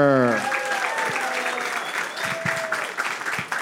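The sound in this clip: Studio audience applause welcoming guests onto a show: dense, steady clapping and cheering fills the whole stretch, with a host's voice briefly heard over it at the start.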